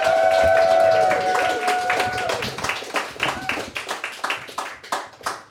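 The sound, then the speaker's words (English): An audience claps to welcome a guest to the stage, the claps becoming sharper and more distinct toward the end as the applause thins out. “So can we please put our hands together and welcome to the stage the fantastic Neelam, Saredia-Brayley.”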